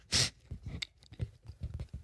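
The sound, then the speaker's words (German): Donuts being eaten, with soft, irregular chewing and biting sounds throughout and one louder, crisp burst near the start. “sorry, falls es irgendwie komisch klingt, wir essen Donuts.”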